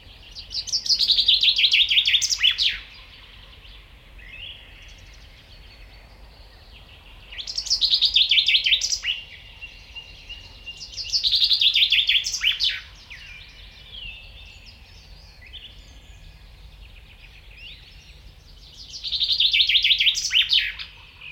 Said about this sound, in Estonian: Nõnda kõlab metsvindi laul.